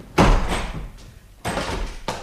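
A door is opened for an arriving officer in a radio drama: a heavy thump and rattle, then two more clunks of the latch and the moving door, with no talking.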